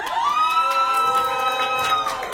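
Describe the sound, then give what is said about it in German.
Audience members at a competition shout "hoi" together, a single sustained, tonal group call held for about two seconds at a steady, moderate level. “Also wie viele Leute haben denn so jemand da in dem Publikum von euch? Rufen mal hoi.”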